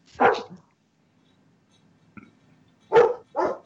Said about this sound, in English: you need to muzzle that dog. Yeah, she heard that.